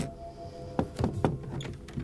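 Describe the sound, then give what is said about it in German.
A suitcase is opened with a few quiet, sharp clicks and thunks from its latches and lid, spaced closely in the middle of an otherwise hushed moment. “Sie gehorchen mir. Öffnen Sie den Koffer.”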